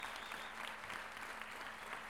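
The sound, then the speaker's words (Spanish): Applause rises from an audience at a payadores gathering in Lo Barnechea, a dense, even patter of many hands. It stays fairly faint and carries on without a break. “Un gran aplauso para todos mis hermanos, mis compañeros de trabajo y de labor.”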